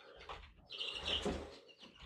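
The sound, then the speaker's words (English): Chicks chirping in a brooder inside a room of a house, faint high peeps and tweets in a few overlapping bursts. “And if you can hear the little birdies in the background, you know, I got some chicks in the brooder”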